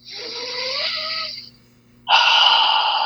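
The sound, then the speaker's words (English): Deep breathing during a guided eyes-closed breathing exercise: one long, loud breath lasting over a second, a short near-silent pause, then a second strong breath. No talk, with a faint low steady hum underneath. “let's close our eyes and let's like just drop into our breath for a minute.”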